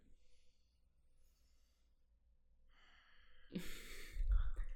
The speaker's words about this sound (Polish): mój ekspert musiał nabrać wdechu.